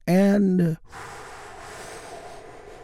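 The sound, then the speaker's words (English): A big, deep breath drawn in after a brief spoken phrase: a long, soft, airy rush of air that stays level and steady to the end. “Take a big, deep, healing breath with me right now. Here we go.”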